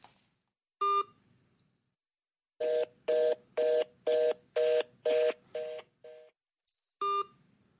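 Electronic telephone tones on an outgoing call: a single beep, then a run of seven steady, evenly spaced beeps, a fainter one, and a final beep, alone with no talk.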